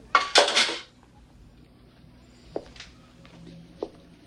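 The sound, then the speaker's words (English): A dirty saucepan picked up from a stove gives a loud, short metallic clatter, then quiet broken by two soft knocks. “picks up a dirty saucepan on the stove.”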